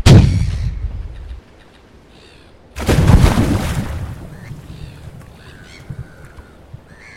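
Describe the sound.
Shotgun blasts fired close by on a boat: two heavy, booming shots about three seconds apart, each loud and sharp at the start and then trailing off in a long, rumbling decay.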